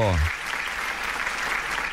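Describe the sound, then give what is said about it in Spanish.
Applause, a dense steady clatter of many hands clapping that fills the whole stretch at an even loudness, following a brief low voice at the very start. “Bueno, unos aplausos.”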